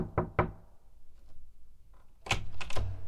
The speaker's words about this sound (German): Kurz nach 12:30 klopfte es an Kleins Bürotür.